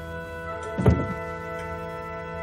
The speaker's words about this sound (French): Pour nous frappe deux coups.